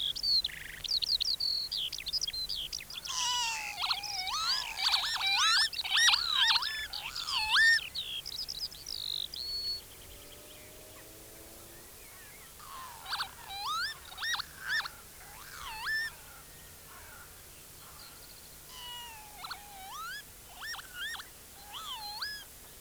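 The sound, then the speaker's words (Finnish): Northern lapwing display song during its courtship flight over fields: several bursts of wheezy whistled calls that rise and fall, in three phrases separated by pauses, with a faint low hum underneath. “Reviireille asetuttuaan töyhtöhyypät aloittavat soidinlentoesityksensä. Samalla ne ääntelevät soidinlaulua.”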